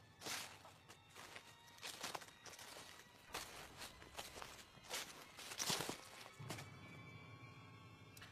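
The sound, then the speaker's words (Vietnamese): Footsteps rustle as they tread through leaves in undergrowth, a series of many soft crunching, swishing steps at an uneven pace, fairly faint, with no voices. “bác Vó rùng mình, nghe có tiếng sột soạt như là tiếng chân người dẫm trong bụi lá vậy.”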